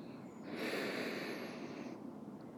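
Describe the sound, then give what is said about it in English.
A slow breath drawn in through the nose during a guided breathing exercise, soft and airy, swelling after half a second and lasting about a second and a half before fading out. “Let's begin by taking a few slow breaths, breathing in through your nose,”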